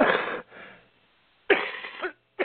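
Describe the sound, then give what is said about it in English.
A person coughing: a few harsh, raspy bursts separated by short silences, the first and second fairly loud and the last very brief, with no talking. “forgive me for coughing.”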